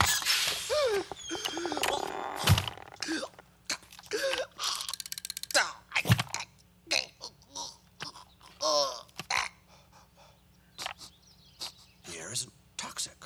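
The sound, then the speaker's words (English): A spaceman's helmet is opened on an uncharted planet with a run of mechanical clicks and ratcheting snaps, in scattered bursts separated by short pauses. “How dare you open a spaceman's helmet on an uncharted planet? My eyeballs could have been sucked from their sockets.”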